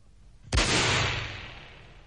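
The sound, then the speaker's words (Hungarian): A single gunshot fired into the air during a duel: a sudden loud crack followed by a long, slowly fading rumble. “A levegőbe lőtt, uram!”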